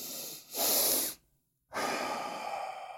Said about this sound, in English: It's a simply, you breathe through the nose with a double inhale like this.